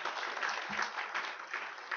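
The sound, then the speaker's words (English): Applause fills the opening of the 2019 membership meeting of the National Association of Addiction Treatment Providers, a steady, even clatter of many hands with one low thump early on. “Yes, applause.”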